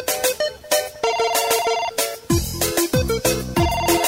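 Electronic telephone ringtone melody of repeated bright chiming notes in a steady pattern, loud and alone, with deep bass beats joining halfway through as part of a live DJ music set.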